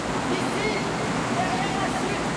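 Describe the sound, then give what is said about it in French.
Steady roar of a waterfall: a dense, unbroken rush of falling water that holds at an even loudness from start to finish. “Ici, derrière la chute d'eau! Derrière la chute d'eau? Comment derrière la chute d'eau?”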